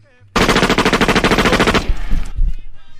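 Firing-squad gunfire in a mock execution: one loud, rapid, sustained burst of automatic shots, then a few scattered heavier thumps and a fading tail.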